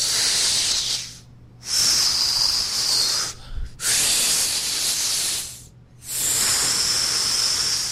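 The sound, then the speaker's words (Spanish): Slow, deep breaths taken to calm down: four long, loud, hissing breaths with short silent pauses between them, heard alone. “A ver, voy a respirar así profundamente para alcanzar mi estabilidad emocional.”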